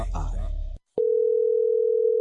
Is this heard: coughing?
no